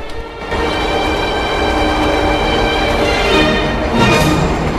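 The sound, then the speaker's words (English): A train passing outside, a loud, steady rushing rumble that fills the whole clip, with a brief surge near the end. “The blind suddenly rolls up to reveal a train outside.”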